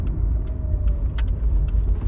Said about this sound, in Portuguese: Não é quando eu dou essa, esse delay, é porque eu tô dirigindo aqui, eu com medo de bater o carro.